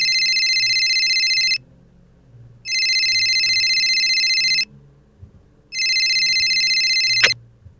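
An outgoing telephone call rings: three long, loud electronic ring bursts separated by silent pauses, with a sharp click near the end.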